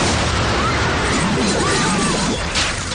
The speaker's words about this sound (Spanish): Una explosión sacude el edificio en obras. Los restos vuelan a la calle.